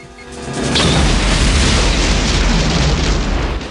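An explosion blasts as a shack blows up and engulfs a helicopter in flames. A deep roaring rumble swells within the first second, then stays loud and sustained to the end.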